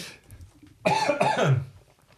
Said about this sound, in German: Ich habe mich an der scharfen Wurst des Gastgebers verschluckt.